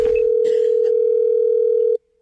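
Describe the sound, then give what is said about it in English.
A telephone's ringing tone on an outgoing call: one steady, unbroken tone that holds at an even level for about two seconds and then cuts off abruptly. A few faint clicks and rustles sit under the very start. “I'm calling because it's Sarah's turn.”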